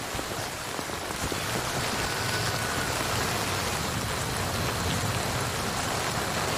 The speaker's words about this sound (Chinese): 等雨停了咱们再赶路吧